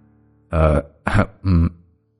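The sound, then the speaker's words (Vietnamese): A voice imitates a heavyset man clearing his throat with three short, gruff, voiced bursts, the middle one briefest, alone in silence. “Thầy Tư Mập hắng giọng, rồi quay mặt đi né tránh ánh mắt của con trai”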